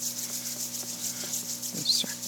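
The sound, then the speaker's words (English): Hands rub together at heart center to warm them during a yoga practice, making a soft, steady swishing friction sound that runs continuously over a faint low hum. “You can take your hands together at heart center and just rub them, warm them up.”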